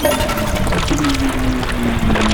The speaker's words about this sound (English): I slipped the flush handle into reverse